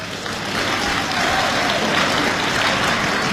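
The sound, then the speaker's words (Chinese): Audience applause at a live stage show, a steady, fairly loud wash of many hands clapping that swells slightly after the start and holds evenly, with no voices heard. “这掌声不热烈，怎么唱这？ 啊！我这掌声还不热烈呢。”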